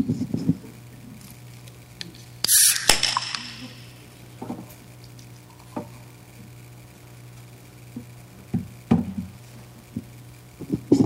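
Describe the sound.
A drink being cracked open for a nitro draft tasting: one sharp pop with a short burst of fizzing hiss, then a few soft clinks and small knocks against a low steady hum, with no talking.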